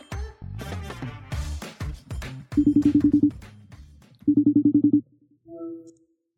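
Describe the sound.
Ringback tone of an outgoing phone call: two loud, buzzing pulsed ring bursts separated by a pause, after a voice speaks briefly at the start.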